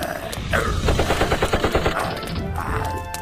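Gunshots: a loud, rapid, continuous burst of gunfire with many shots in quick, regular succession, like automatic fire, and little pause over about three seconds.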